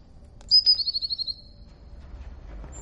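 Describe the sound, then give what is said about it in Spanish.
A black bird bursts out of a wardrobe with a shrill, high whistling cry, followed by a quick run of rapid pulses. It then fades into a quiet, low rustle. “Lo abre. Un pájaro negro sale del armario.”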